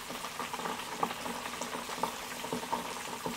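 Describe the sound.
Shrimp fry in hot oil in a small Chefman deep fryer, giving a faint, steady bubbling sizzle dotted with many small irregular pops and crackles, with no talk over it.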